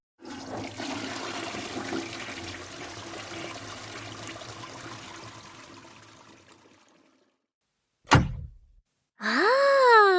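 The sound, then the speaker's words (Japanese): A toilet flushing: a steady rushing gush of water that gradually fades over several seconds, then a single dull thunk, followed by a voice. “それじゃシーシー流してお部屋戻ろっか。”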